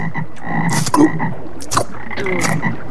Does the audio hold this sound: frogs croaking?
yes